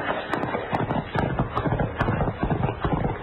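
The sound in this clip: Hooves of horses galloping as riders chase a fleeing rider in a Western setting: a loud, rapid, steady clip-clop that runs without a break throughout.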